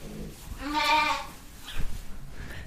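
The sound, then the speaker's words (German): Bleating from sheep, ewes with their young lambs in a sheep barn: one loud, wavering, harmonic cry in the middle, followed by a few softer scattered rustles and knocks. “Das ist unser Schafstall. Das sind die Mamas. Die frischen Mamas mit ihren kleinen Lämmchen.”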